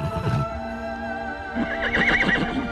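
A mare whinnies, starting with a brief call and then giving a longer, quavering, high-pitched neigh with a wavering tone. No other sounds stand out.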